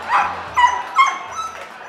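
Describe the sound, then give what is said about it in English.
A dog barks at an intruder in the middle of a stage show, giving a few sharp, fairly high yipping barks that stand out loudly. “One night, mid-performance, Beauty started barking. She'd discovered an intruder.”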